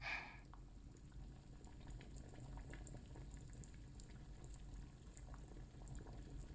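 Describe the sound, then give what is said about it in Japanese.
Water boils in an iron kettle over burning charcoal: a steady, faint bubbling hiss and low rumble with scattered soft pops throughout, no voices. “炭の燃えるいい音がします。鉄瓶のお湯が沸く音も。”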